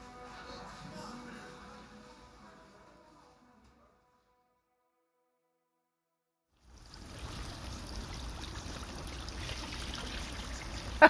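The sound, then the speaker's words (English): Running tap water pours over broccoli being washed. After a few seconds of near silence, a steady, full rush of water starts and continues to the end, with one brief louder knock at the very end. “You're going to wash the florets right off”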